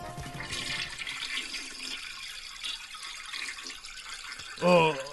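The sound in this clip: A toilet flushes with a rush of swirling water that gradually thins into a softer trickle, followed by a short, louder sound just before the end.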